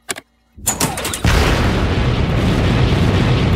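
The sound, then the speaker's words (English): Spaceship retro rockets firing to slow the craft: a short blast is followed by several sharp booming bursts, then a loud, sustained, rumbling roar that holds steady to the end. “In space camp, we learned about countering forward momentum with retro rockets. If we use them now, the ship might slow down enough for gravity to pull us out of orbit.”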